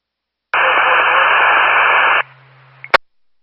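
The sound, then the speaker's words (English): Radio static sounds as a loud, steady burst of hiss with a low hum underneath for under two seconds, then drops to a faint hiss that ends in a sharp click. “Latitude King 38, static only.”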